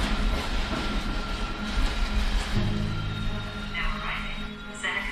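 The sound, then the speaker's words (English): A passenger train stops at a station with a continuous loud rumble of rolling carriages and a low hum, and faint higher squeals appear near the end. “The train stops at the station.”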